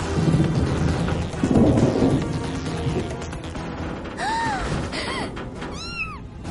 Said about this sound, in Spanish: La tercera atraviesa la ciudad y choca contra un edificio con gente. El edificio empieza a caer.